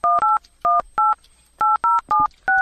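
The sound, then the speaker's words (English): Touch-tone telephone dialing sounds as eight short, clear beeps in an uneven rhythm. Some tones come in quick pairs and others follow after brief gaps, with no voices. “Dialing.”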